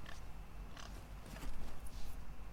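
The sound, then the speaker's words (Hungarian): Pigs grunting in a video game: a few short, rough grunts and snorts rise out of steady low background noise, faint and unevenly spaced. “Viszont, disznók. Röfik.”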